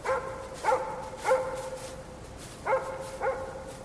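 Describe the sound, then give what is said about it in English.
Dog barking on quiet streets near a harbor, far out of sight: four fairly faint, clear barks in two pairs, each a short tonal yelp with a slight upward inflection, separated by gaps of steady low background hiss. “the occasional dog barking somewhere far out of sight.”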